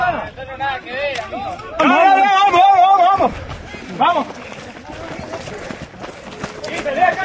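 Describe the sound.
Running footsteps of people in a race, herded along like a train, make a quick, uneven patter under loud talk and crowd voices.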